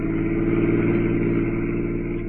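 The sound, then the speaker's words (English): A car engine drones steadily as it drives along across the desert toward a highway, a continuous low, even hum with no break and no voices. “Pat and I were spinning along across the desert toward the Pacific Highway.”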